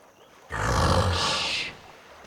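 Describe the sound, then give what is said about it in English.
An African hippopotamus lets out a single loud, rough roar lasting just over a second, a broad, breathy bellow that starts suddenly and fades out after quiet surroundings. “As he keeps reminding me, I'm joined by a very special guest this time out. An African hippopotamus.”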